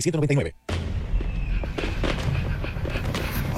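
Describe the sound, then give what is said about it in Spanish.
Fireworks exploding in a dense, noisy barrage of booms and crackles that begins abruptly after a brief silence and carries on steadily to the end. “Cuando tú usas pólvora, mi corazón late tan rápido que siento que va a explotar.”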